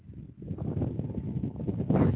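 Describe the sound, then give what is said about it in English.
Wind gusts across the microphone outdoors on a very windy May day, making a low, rough buffeting rumble that grows louder toward the end, with no voices. “And we are live from Merrillhurst University on this very windy May day in 2010.”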